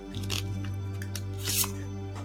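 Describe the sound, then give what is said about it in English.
A card is drawn from the Meraki Tarot deck, giving a couple of soft, papery slides and snaps that sit faintly over a low, steady hum. “And then I'm going to go ahead and pull a card. I've got the Meraki Tarot deck here.”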